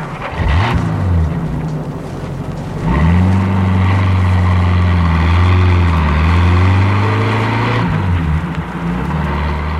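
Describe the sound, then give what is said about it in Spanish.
Car engine drone as the vehicle starts moving, a low, loud, steady hum whose pitch climbs after a few seconds, levels off, then dips and rises again near the end. “El automotor se pone en movimiento y el hombre de Estambul acciona el volante mirando de reojo a través del espejo retrovisor a sus futuras víctimas.”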